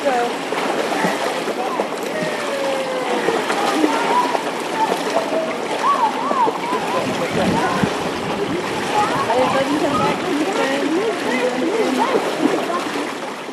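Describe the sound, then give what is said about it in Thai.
Splashing water as Year 2 schoolchildren jump into a pool during a swimming lesson, with busy, irregular splashes throughout and children's voices calling over them. “นั่นเป็นเสียงของความสนุกสนานของนักเรียนชั้นปีที่2ซึ่งกำลังกระโดดเข้า สู่บทเรียนหนึ่งที่สำคัญนั่นก็คือการเรียนว่ายน้ำ”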